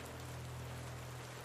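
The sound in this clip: Rain falls as a steady, soft hiss with a constant low hum beneath it and no voices.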